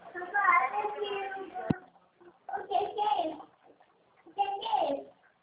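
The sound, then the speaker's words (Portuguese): Water running into a one-litre bottle in short bursts, a soft gurgling rush that stops and restarts a few times, with voices in between. “Papai tá enchendo o litro aqui, calma.”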